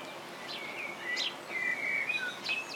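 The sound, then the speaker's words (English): Blackbirds sing in the rain at a nature reserve, their high, fluting phrases rising and falling over a steady hiss of rainfall, with no voices. “Also in the background, you can hear the blackbirds singing, which a lot of people think is the best song you can hear. They do have a lovely song, and they like to sing when it's raining, like it is now.”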